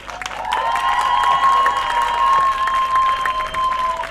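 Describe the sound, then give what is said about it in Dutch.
Warm applause from a crowd at an anti-racism demonstration, steady and dense clapping that swells for about four seconds. A sustained whistle-like tone runs through it. “mag zij alsjeblieft een extra warm applaus voor haar geduld.”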